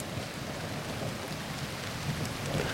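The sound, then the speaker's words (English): Steady rain falling, a dense, even hiss of countless drops with a deep low rumble underneath, holding at a constant level throughout with no voices. “I just like listening to the rain.”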